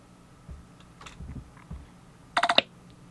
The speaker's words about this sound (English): I'm going to hit enter.